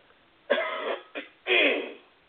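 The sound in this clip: Throat clearing by a person whose throat feels irritated, with three harsh bursts: a long rasp, a short catch, then a longer rough rasp, alone and moderately loud.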